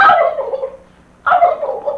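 Turkey gobbling from a captured bird, in two rattling bursts separated by a short pause, each starting loud and trailing off.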